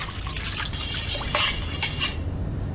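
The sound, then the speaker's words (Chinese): Cooking wine, soy sauce and water stirred together, a continuous mix of utensil clinks, scraping and sloshing liquid, fairly loud with no talk. “加入料酒100克，加入适量的生抽，最后加入适量的清水拌匀，”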